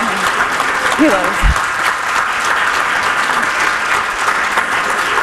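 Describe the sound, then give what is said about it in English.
An audience applauds a Palestinian writer at a live event. The clapping is loud and steady for the whole stretch, and a brief voice or cheer rises above it near the start. “Another round of applause for an incredible Palestinian writer, woman.”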